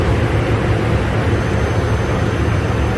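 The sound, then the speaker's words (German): Steady, dense aircraft cabin roar on an ambulance flight home to Saarbrücken: a constant, loud low rumble with an even hiss above it that neither rises nor falls, and no talking. “Ich bin nämlich auf dem Heimflug nach Saarbrücken.”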